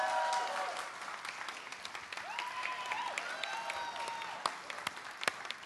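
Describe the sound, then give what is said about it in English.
A church audience gives a faint round of applause to welcome online listeners, steady clapping with a few scattered voices and sharper claps near the end. “And would you also give a great big hand for all of those that are listening online today? Come on, let's welcome them.”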